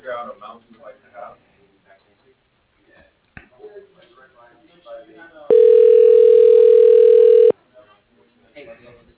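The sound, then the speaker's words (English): Telephone line tone while a call is transferred to voicemail: a steady, loud electronic tone lasting about two seconds, preceded by faint voices and line noise, with a voice resuming after it stops. “I can transfer you to the controller's voicemail.”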